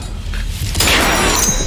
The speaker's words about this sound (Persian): صدای شلیک